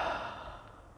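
A deep exhale during a guided breathing exercise: one long, breathy outflow of air that starts strongest and slowly tapers over about a second.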